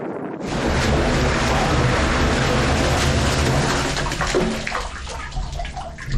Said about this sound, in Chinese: 随着工作人员一声声指令，阿尔塔什水利枢纽大坝下的集鱼斗开始起吊，全自动生鱼机运鱼系统正式启动。